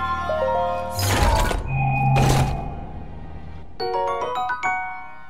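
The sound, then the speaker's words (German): A video game sound for finding a treasure chest: two heavy whooshing thuds over low tones, then a bright sequence of ringing chime notes. “Wenn Ihre Antwort ist Computerspiel, irgendwer hat da gerade eine Schatztruhe gefunden. Vollkommen richtig.”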